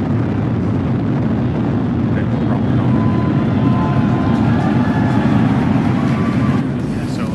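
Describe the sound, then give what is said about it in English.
A two-stage rocket carrying a Dragon capsule roars at liftoff, a loud, continuous, deep rumble that stays steady and eases slightly at the very end. “Ignition, liftoff. Vehicle is pitching downrange.”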